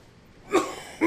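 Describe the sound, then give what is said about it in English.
A man coughs twice in short, harsh bursts after a moment of near silence. “before I cough again”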